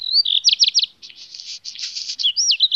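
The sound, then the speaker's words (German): Black redstart song: a short whistled opening, a quick run of sharp chirps, then a long scratchy, buzzy passage, closing with clear whistled slurs. Loud and alone, with no other sounds. “Ja, das ist zweifellos ein Hausrotschwanz.”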